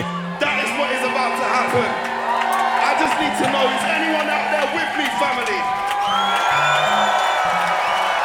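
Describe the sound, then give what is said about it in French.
A live audience at a jazz festival in Marseille cheers with sustained whoops, shouts and clapping that keep going throughout, while a voice speaks over the crowd. “On entend le public. Incroyable.”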